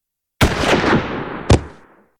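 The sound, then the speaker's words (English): A rifle gunshot fired by a boy at a lynx: a sudden loud blast with a long rumbling tail, followed by a second sharp crack that dies away quickly into silence. “But the boy shot his rifle, and the lynx fell to the ground, dead.”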